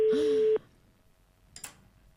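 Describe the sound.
A telephone line tone on a radio call-in line: one steady, mid-pitched buzzing tone lasting about half a second that cuts off abruptly, followed by near silence and a faint click.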